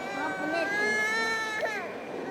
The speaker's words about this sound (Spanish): Le empezó a llorar y va a salir ahí.